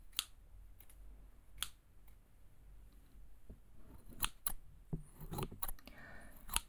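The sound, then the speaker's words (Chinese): Sharp scissors cut with crisp metallic snips, many quick cuts spaced irregularly, some in close pairs, over faint background noise. “这把剪刀很锋利呢。”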